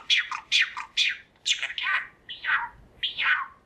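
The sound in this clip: A pet bird squawks in a quick string of harsh, high, chirping calls separated by short gaps, loud and alone with no human talk.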